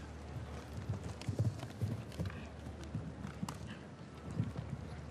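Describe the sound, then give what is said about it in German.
Hoofbeats of a horse galloping on a cross-country eventing course and taking a jump, a run of irregular, muffled low thuds with a breathy wind noise over the microphone. “Also, es hat das Pferd hier einen wahnsinnigen Satz gemacht.”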